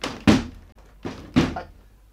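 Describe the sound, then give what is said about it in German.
Dull thumps of a door being pushed but stuck shut, heard as three heavy knocks in an uneven rhythm, the last two close together, with no voices. “Die Tür geht nicht auf.”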